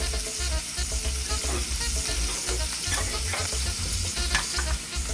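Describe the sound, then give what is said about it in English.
Shrimp frying in a skillet, cooked partway before a sauce is built in the same pan, with a constant dense sizzle and crackle at moderate volume and no voices. “So I already dropped my pasta. So we're gonna cook our shrimp about halfway and then we're gonna build our sauce from that.”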